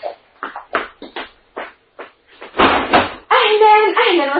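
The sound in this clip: A door is opened after a few words of speech, with a brief rattling clatter followed by a drawn-out, wavering creak.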